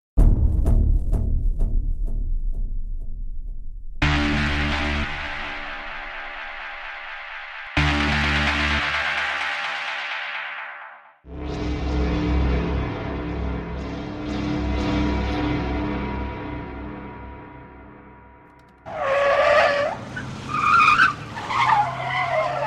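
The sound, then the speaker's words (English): Roaring engines of two jeeps racing through a sleepy town in a chase, loud revving bursts broken by brief pauses, with sharp tire skids and high squeals toward the end. “the roaring engines of two jeeps shattered the sleepy ambience of the town.”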